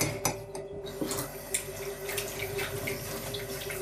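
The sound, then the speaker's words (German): Tap water runs as a face cream jar is rinsed in a sink, a steady splashing flow with a few sharp knocks and clinks of the jar, fairly faint. “Warte mal, dann wasche ich den Tiegel da auch nochmal auf.”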